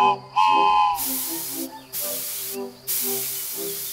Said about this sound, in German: Klein, aber fein, unsere Dampflok. Sie kann auch fahren.